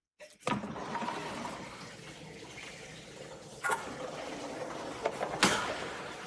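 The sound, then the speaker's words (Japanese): Water rushing steadily in a large communal bath at a hotel, on the seventh floor, with a few sharp clunks breaking through the continuous splashing flow. “ニューグリンピア津南7階の大浴場にやってきました”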